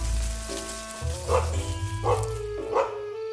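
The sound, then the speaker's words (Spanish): A small dog barks happily in a few short, bright yaps, spaced about a second apart, over a steady sustained tonal background. “El perrito corría sin parar, persiguiéndolo todo, ladrando de alegría.”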